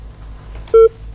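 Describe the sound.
A telephone keypad tone from a call being dialed: one short, steady DTMF beep sounds clearly over a low, continuous hum, with no talk.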